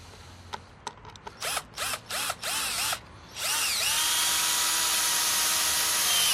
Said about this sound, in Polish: Damy tutaj fajne wkręty z torksem. Środeczek. To są fajne, bo samowiercące wkręty.